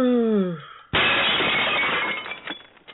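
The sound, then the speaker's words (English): A glass table shatters in one loud crash of bright breaking glass that trails off into a few scattered tinkles. A falling vocal cry comes just before it. “God damn it, we got to get some new tables. We got to get some wood tables. These glass ones are just”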